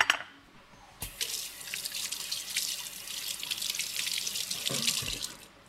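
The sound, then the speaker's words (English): Running tap water as hands are washed at a kitchen sink to rinse off butter grease while cooking miso mushroom pasta. After a brief knock and a quiet start, a steady splashing hiss of water runs alone to the end. “my hands always get super oily when I portion out butter. So I'm gonna go wash my hands.”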